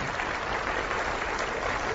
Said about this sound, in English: Hey, you can clap for that.